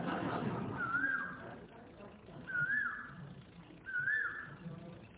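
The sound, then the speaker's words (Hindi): An Asian koel calls three times: short, clear whistled notes, each rising then dipping slightly, spaced evenly over a faint, steady background hiss. “सुनो उस कोयल को”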